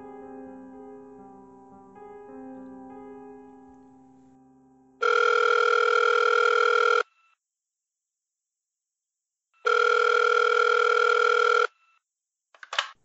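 Ringback tone heard while placing a call to a number: two long, steady buzzing tones of about two seconds each, separated by a silent gap, followed by a brief burst of noise at the end.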